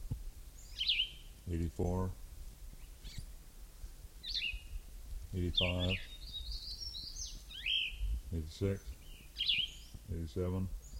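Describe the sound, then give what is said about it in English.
A bird calls again and again in short, high, chirping phrases, with several calls spread across about eleven seconds. Low voiced sounds, likely speech, come in between the calls at intervals. “This is bird number one again.”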